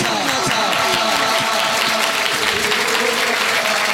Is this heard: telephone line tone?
no